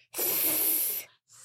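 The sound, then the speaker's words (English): A child's voice imitates a snake with one long, steady, breathy hiss, then starts a shorter, fainter hiss after a brief pause. “How about a snake?”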